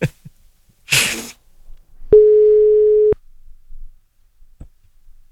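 A telephone busy signal on a failed call, heard as one steady mid-pitched tone lasting about a second, preceded by a short hissing burst and surrounded by faint scattered clicks.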